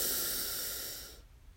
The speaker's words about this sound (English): Breathe in and out. The final breath in